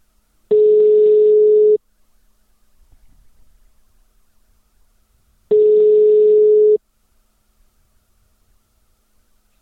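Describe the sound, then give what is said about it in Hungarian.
Ringback tone of an outgoing telephone call, two loud, steady, mid-pitched buzzing tones of about a second each, separated by several seconds of near silence, with another tone just starting at the very end. “Most őket fogjuk felhívni, és értesítem őket a nagyszerű hírról.”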